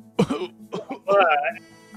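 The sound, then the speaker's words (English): A man coughs because of dust, giving a few rough, throaty coughs and throat-clearing sounds, ending in a longer voiced hack. “if you could cough a little quieter, please”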